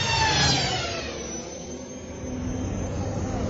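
A speeder's engine whooshes as the craft accelerates away, a whining roar that sweeps downward in pitch during the first second and then settles into a steadier, softer rumble.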